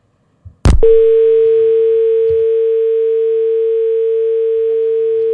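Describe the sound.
A telephone dial tone sounds while a call is being placed: a short click, then a loud, steady single-pitch hum that holds unbroken to the end.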